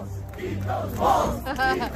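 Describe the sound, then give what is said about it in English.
A crowd cheering on a man as he eats an entire jar of cheese balls. Loud voiced whoops and shouts swell and rise in pitch midway through the short burst. “And they cheered him on as he ate the entire jar of cheese balls.”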